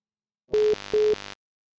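Two short, identical mid-pitched electronic beeps on a telephone line, signalling an incoming caller on a live call-in show. Each beep is loud and steady and is followed by a softer fluttering tail, with a brief gap between them.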